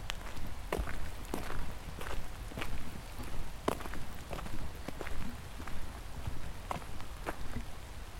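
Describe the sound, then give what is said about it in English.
Footsteps of a tired walker in the late afternoon, a regular, even series of crunchy treads over a constant background hiss, with no talk. “It is late in the afternoon. You're feeling tired. You must keep walking.”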